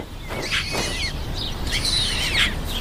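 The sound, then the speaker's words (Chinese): White stork chicks begging for food after rain, high rasping chirps and squeals in two busy bursts over a steady background hiss. “雨一停，雏鸟又开始要吃的。”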